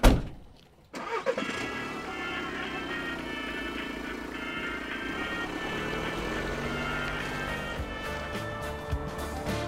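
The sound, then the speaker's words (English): An imported 2003 Mitsubishi Delica van travels through the Caucasus. After a brief loud burst, its engine settles into a steady mid-pitched drone with a constant hum and faint tonal whine that hold for several seconds. “It is late. You're in the Caucasus, traveling in an imported 2003 Mitsubishi Delica, which still has Japanese-labeled diagrams warning you to wear seatbelts.”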